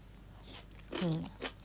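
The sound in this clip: Someone chews daikon radish as a palate cleanser between bites of a large meal, making a few soft crunches with a short murmur of voice among them.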